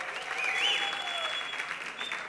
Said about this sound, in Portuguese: Uma salva de palmas também para o Noise Earth.